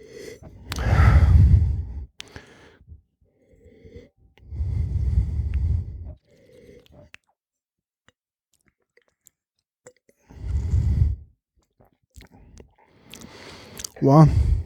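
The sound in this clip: Rare red wine being sipped and tasted: a few airy slurping bursts separated by quiet pauses, with a short voiced sound at the very end.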